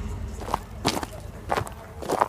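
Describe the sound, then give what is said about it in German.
Footsteps walking along a forest edge: a few crisp, crunching treads at an uneven pace, fairly loud and alone, with no voices. “Geht tatsächlich alles zu Fuß. Schön am Waldrand entlang.”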